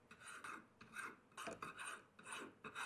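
Fine file rasping across a workpiece being smoothed and shaped into a bangle, a quiet, gritty scrape repeated in a steady series of short strokes with brief pauses between them.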